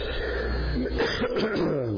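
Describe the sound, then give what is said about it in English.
Throat clearing by someone with a slight frog in the throat blamed on a high pollen count: a brief, rough, raspy rumble that holds steady for about two seconds. “I've got a little frog this morning, so forgive me if I clear my throat 100 times.”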